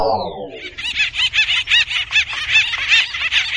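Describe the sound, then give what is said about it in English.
Acorn woodpeckers fight over trees where they nest and store food, giving many rapid, raucous, laughing calls that repeat loudly and almost without pause. “What you're hearing is war among woodpeckers, a species called acorn woodpeckers. The birds fight long, bloody battles over access to trees”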